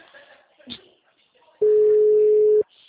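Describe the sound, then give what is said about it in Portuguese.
A telephone tone during an outgoing call: one steady, loud, mid-pitched beep lasting about a second, preceded by faint voice-like sounds. “tô chamando aí no telefone”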